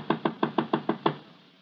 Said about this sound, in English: He knocks on the door. There is no answer. After a wait, he knocks again.